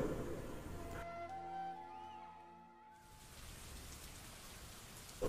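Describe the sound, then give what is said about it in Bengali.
Morning rain falls as a steady, faint hiss. A brief stretch of sustained musical tones interrupts it in the middle before the rain noise returns. “এক সপ্তাহ পর আজ সকাল দিয়ে বৃষ্টি হচ্ছে”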